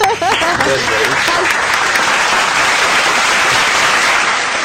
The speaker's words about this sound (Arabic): برافو سقفوا عليها